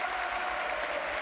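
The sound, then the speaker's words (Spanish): A stadium crowd gives a standing ovation as a player leaves the pitch at a football match, with dense, steady applause and cheering that does not let up. “pide Griezmann la ovación para Thiago, pero insisto, todo el Calderón en pie”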